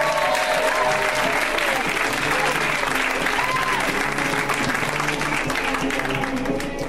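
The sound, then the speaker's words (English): An audience applauds as a comedian is welcomed onto the stage: loud, dense clapping with crowd noise that holds steady throughout. “Let's hear it right now for Nicole Byer, guys. Give it up for Nicole.”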